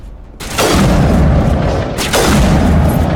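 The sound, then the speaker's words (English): Sniper rifle shots in a video game: two loud, heavy booms, each with a long rumbling tail. The second follows about a second and a half after the first. “Switch back to the sniper rifle.”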